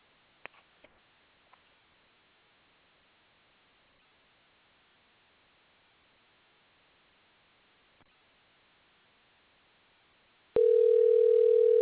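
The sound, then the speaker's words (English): Telephone dial tone while a call is placed: a faint hissing line with a few small clicks, then a loud, steady single-pitch tone cuts in near the end and holds. “Okay, let's try to get a brother a call. If you're listening, Chop, we are about to call you up.”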